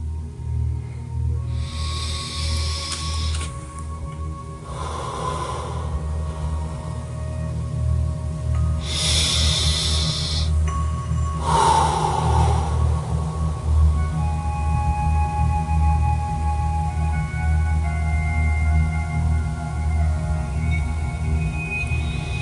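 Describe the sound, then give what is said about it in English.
Slow, deep breathing during a meditation: four soft, airy breath sounds spaced a few seconds apart, followed by a long quiet stretch, over faint sustained tones. “Relax. Breathe slowly.”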